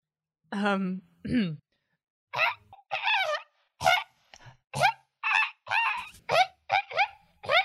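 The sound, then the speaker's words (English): A person imitates a pheasant call with many loud, nasal honking squawks, irregularly spaced and each short and harsh, with no other sound between them. “I need a pheasant noise and I couldn't find one that we could legally use. So could you be a pheasant for me?”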